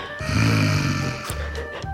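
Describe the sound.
A person imitates snoring with the voice, a low rasping buzz lasting about a second, followed by a softer breathy rasp.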